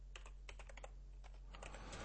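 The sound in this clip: Quick keystrokes on a computer keyboard as a course name is typed out: quiet clusters of rapid clicks in two bursts with a brief pause between, over a steady low hum.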